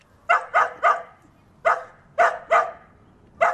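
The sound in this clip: A taigan hunting dog, trained to track people by scent, barks seven times in short, sharp bursts: a quick run of three, then one, a pair and a final bark, with quiet gaps between.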